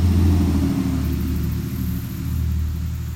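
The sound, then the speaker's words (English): A loud, noisy truck drives past with a deep, steady engine rumble that stays strong for the whole few seconds. “a very loud and noisy truck just went by.”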